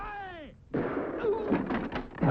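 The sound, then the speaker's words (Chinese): A gunshot as a bullet grazes a man's arm on a rooftop: a falling, whistling tone for about half a second, a brief gap, then a sudden loud burst of rough noise that keeps going to the end. “刚刚爬到屋顶，一颗还有那么点灵气的子弹在皮特的胳膊上蹭了一下。”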